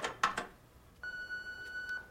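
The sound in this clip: An answering machine gives one steady, high electronic beep lasting about a second. A few soft clicks come before it.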